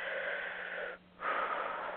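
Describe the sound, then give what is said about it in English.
Deep, cleansing breath in during a guided relaxation: a long, airy rush of breath, soft and steady, with a brief dip near the middle before the breathy sound resumes. No one speaks. “At one, with a big, deep cleansing breath in,”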